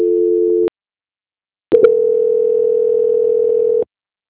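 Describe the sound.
Telephone line tone during a call transfer: a steady, even electronic tone sounds briefly, cuts off for about a second, then returns and holds for roughly two seconds before stopping abruptly.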